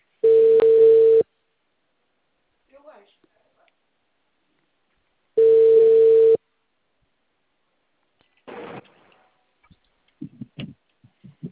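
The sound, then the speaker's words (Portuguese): Ringback tone of an outgoing telephone call: two steady, even tone bursts about a second long, spaced roughly four seconds apart, followed by faint scattered noises. “Wallace, Ana Cláudia, eu tô te ligando.”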